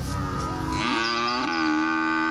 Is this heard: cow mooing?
yes